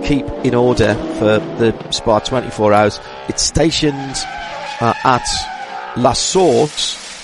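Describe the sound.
Race cars in televised highlights of restarts at the Spa 24 Hours, near La Source, with engine and tire noise running faintly beneath steady talk.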